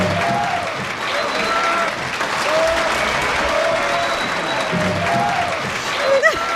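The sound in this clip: Applause breaks out during a live webcam show: steady, even clapping with a few voices mixed in and a brief louder burst near the end.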